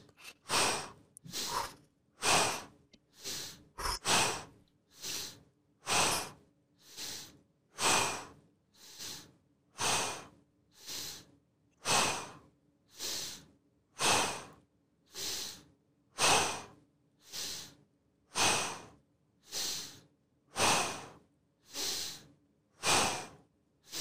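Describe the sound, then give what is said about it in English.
Slow, deep breathing in and out during a one-minute breathing exercise, a long series of regular, evenly spaced airy breaths, each rising and fading in a steady rhythm, with no talking. “You breathe in, you breathe out for one minute.”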